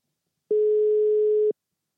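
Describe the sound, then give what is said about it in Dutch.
A single steady telephone tone sounds while a guest is being called, one clean mid-pitched beep lasting about a second, alone between silence. “kan je onze gast eens bellen?”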